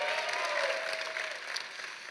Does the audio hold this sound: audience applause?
yes